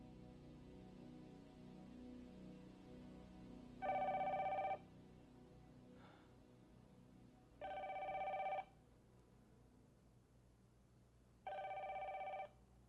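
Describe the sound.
A telephone rings three times, each a short, bright, buzzing trill, separated by a few seconds of quiet low background hum.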